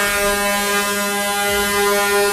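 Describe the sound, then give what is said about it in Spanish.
Truck air horn sounding one long, unbroken blast, a loud, steady tone rich in harmonics that holds without change throughout. “Uy, suena largo. Los pitos que yo tengo aquí.”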